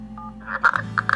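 Keypad tones as a telephone number is dialed, heard as a few short, bright beeps in quick succession after a steady low hum. The beeps are clear and fairly loud, with no talk.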